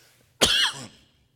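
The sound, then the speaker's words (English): A single cough brought on by a tickle in the throat, blamed on pollen: one short, loud, rough burst that fades quickly, heard alone with no talk around it. “I got a tickle in my throat, I guess it's the pollen.”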